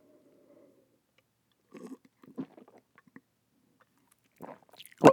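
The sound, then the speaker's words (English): Beer is sipped and swallowed in a few faint, scattered wet mouth sounds between quiet stretches, ending in one louder gulp. “I don't know if you could hear me drinking it. Like I said, very good beer.”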